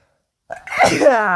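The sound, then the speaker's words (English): A single loud sneeze bursts out of silence and ends in a voiced, drawn-out tail. “Hang on, I gotta sneeze. Hang on. It's coming.”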